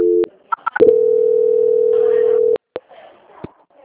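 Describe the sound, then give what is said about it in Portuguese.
A telephone line tone follows a dropped call. A few short beeps lead into a loud, steady single-pitched tone lasting nearly two seconds that cuts off abruptly, followed by faint clicks. “Oi, estava finalizando a ligação, caiu, né? Tem caiu a ligação.”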